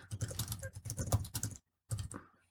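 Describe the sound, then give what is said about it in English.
Rapid typing on a computer keyboard gives many fast, irregular clicking keystrokes in a steady burst, then a brief silence before a few more keystrokes resume. “Because I can type one thing and find it.”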